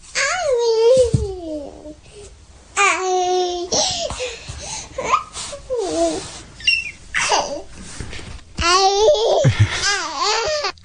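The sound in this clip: A toddler girl of about two babbles in high, sing-song bursts of vocalizing, with squeals and giggles separated by short pauses.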